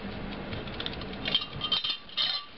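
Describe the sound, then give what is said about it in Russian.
A clock's mechanism clicking and rattling in an irregular run of small mechanical ticks, faint at first and growing sharper and louder toward the end, with no clear strike. “Это крикнули часы. И минутная стрелка упала еще ниже.”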